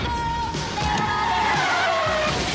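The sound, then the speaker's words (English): A minivan skidding with a loud, sustained tire squeal, a high screech that drifts slightly lower in pitch over a roaring engine. “What is it? It's a minivan. A minivan? No. Think of it like a Bradley assault vehicle.”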